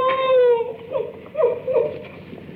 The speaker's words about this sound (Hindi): ओहो, तो तू रोती क्यों है?